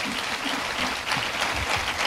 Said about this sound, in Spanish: Así, ese es el aplauso, dáselo mejor.